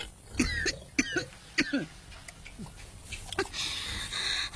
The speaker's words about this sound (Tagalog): Nga nga nag-uubo-ubo ako.